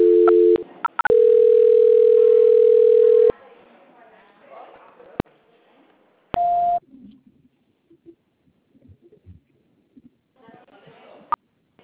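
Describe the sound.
Telephone line tones play while a call is being transferred. A brief dual tone comes first, then a steady tone lasting a couple of seconds. Clicks follow, then one short higher beep, and faint muffled sounds trail after.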